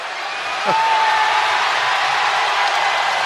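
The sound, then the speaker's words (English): A hockey arena crowd in a San Jose Sharks versus St. Louis Blues game reacts as a player steps into the penalty box. The broad roar jumps noticeably louder after a moment and then holds steady. “Crowd responding to him stepping into the penalty box, but he wouldn't go in there unless he had a penalty.”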